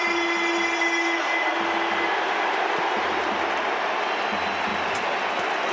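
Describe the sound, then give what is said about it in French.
Roaring crowd ovation at the Vélodrome stadium in Marseille as Basile Boli enters. A dense, sustained wall of cheering and applause stays loud and even from start to finish. “L'ovation du Vélodrome.”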